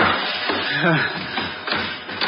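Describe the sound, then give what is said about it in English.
Thumping and hammering come from overhead in an attic being made over into a room. Dull low thuds and sharper taps fall in an irregular rhythm, with muffled voices underneath. “But now that thumping and hammering overhead was making everything impossible.”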